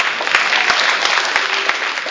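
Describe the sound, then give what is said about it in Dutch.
Short burst of applause from a church group, with crisp individual claps standing out from a steady wash of clapping hands throughout. “Kijk, applaus mensen.”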